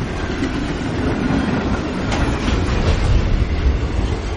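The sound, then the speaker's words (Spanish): Freight train crossing a bridge: a steady rumbling roar with rhythmic clickety-clack of wheels on rails, sustained throughout and swelling slightly louder in the second half. “Se asoma y observa el puente. Pasa un tren de mercancías.”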